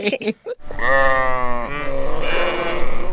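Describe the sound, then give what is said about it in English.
A sheep bleating sound effect begins after a brief bit of speech. One long, steady, nasal bleat is followed by a second, rougher, wavering bleat, both loud and clear. “Oh, the sound of the sheep means we made a little mistake.”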